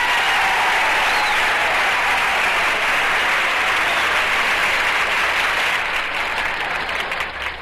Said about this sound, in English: Well, you see that? Yeah. I got a rousing ovation.